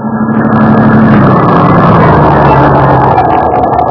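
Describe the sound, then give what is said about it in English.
A car engine runs steadily while the car is driven, a loud, continuous low drone with an even rumble and no pauses, heard on its own without talk throughout. “I drove Battalion Chief Callahan back to the firehouse after the trial.”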